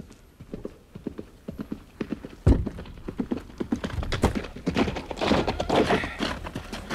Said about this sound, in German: Majestät, hier mein Pferd.